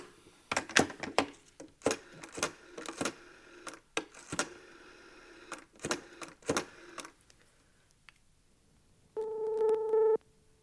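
A telephone call being placed to a governor at home: a run of sharp clicks and knocks from handling the phone, followed by a steady electronic tone with bright harmonics that lasts about a second before cutting off.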